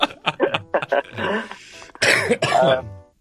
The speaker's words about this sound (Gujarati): છેલ્લા લગભગ 15 દિવસથી ખાંસી નથી જઈ રહી યાર, મને શું કરું?